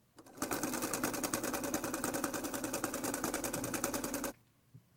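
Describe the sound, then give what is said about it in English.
Rapid mechanical whirring and clatter of a pedal-operated spinning wheel, running at a steady, fast rhythm for about four seconds before stopping abruptly into near silence. “These spinning wheels used to be common in this kingdom.”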